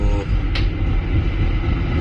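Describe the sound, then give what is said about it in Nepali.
Steady low rumble of a small tram ride in Finland: a continuous rolling drone with a brief higher squeak near the start and no talk. “म त छकछकेमा चढेर सुरुर लाग्दैछु आफ्नो गन्तव्यतिर। हाम्रो छकछके rail सानो tram”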